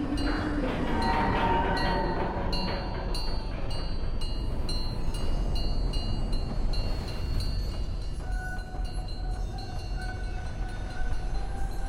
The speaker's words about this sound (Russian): Прибывает поезд в виде дракона со светящимися красными